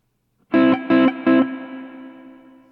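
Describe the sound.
Overdriven amp tone on the classic stack setting: three distorted chords struck in an even rhythm, each loud and thick, the last left ringing and slowly fading.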